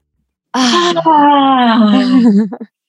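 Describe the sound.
A deep breath let out as a long voiced exhale, like a sighing moan, steady for about two seconds before wavering and trailing off at the end.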